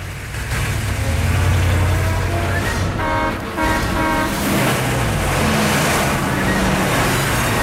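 Three armored trucks roll along a downtown street, a loud, steady low rumble of heavy engines and tires, with a brief horn-like toot near the middle. No one speaks.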